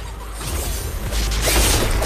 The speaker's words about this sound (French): Ah bah voilà, il est mort. Ça explose bien, en plus.